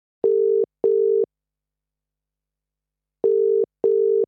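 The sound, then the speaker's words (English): A telephone call being placed produces two pairs of steady, low buzzing tones. A long silent gap separates the pairs, and the tones are clean and alone. “without further ado, let's give Sam a call and bring her in.”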